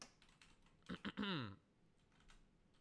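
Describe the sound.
Typing on a computer keyboard: a quick burst of keystrokes, a couple of separate taps followed by a rapid clattering run, then quiet.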